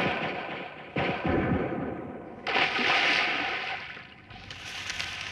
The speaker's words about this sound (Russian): Ну, чего стрелял?